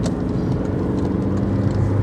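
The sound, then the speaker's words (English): A car engine runs while overtaking a slow van on the road, giving a steady, broad rumble mixed with road and wind roar. “Excuse me, I'm doing an overtake that I probably shouldn't.”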